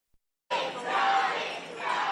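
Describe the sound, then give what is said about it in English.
Fans cheering outside a Virginia courthouse after the jury verdict for Johnny Depp in his libel suit. A brief silence gives way to a sudden, sustained roar of crowd shouting that stays loud to the end. “Fans cheered outside the Virginia courthouse after a jury sided with Johnny Depp in his libel lawsuit against ex-wife Amber Heard.”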